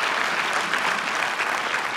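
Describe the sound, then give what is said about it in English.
A church audience applauds a guest at the pulpit, with dense, even clapping from many hands throughout the short moment. “So with a round of applause, loving from Valley Bible Fellowship, welcome to our pulpit.”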